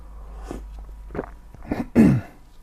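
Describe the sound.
A throat-clearing cough: one loud, harsh burst near the end, preceded by a few faint, short breathy sounds.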